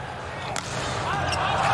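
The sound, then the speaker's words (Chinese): A single sharp smack of a volleyball jump serve in a match involving China's team, one brief hit heard under a commentator's voice and steady crowd noise. “王斌大力跳发。”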